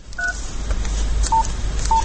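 Mobile phone keypad tones: three short, clean beeps spread across two seconds over a steady background rumble and noise, the first a two-note tone.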